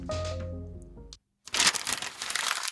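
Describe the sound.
A beer being opened: a sudden burst of bright hiss and fizz that keeps going for over a second. Before it come a stretch of steady tonal music and a short gap of silence.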